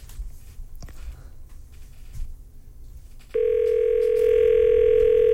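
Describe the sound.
Steady telephone dial tone on an outgoing call to a listener, starting partway through after a stretch of low, rumbling background noise and holding at an even, loud level to the end.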